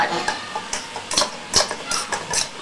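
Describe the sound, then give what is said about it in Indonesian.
Stir-frying capcay, an Indonesian vegetable dish, in a pan: a run of irregular scraping and clattering strokes with a faint sizzle beneath. “Capcay kok digoreng sih? Kan begini kalau capcay. Iya, capcay ditumis. Ini tumis.”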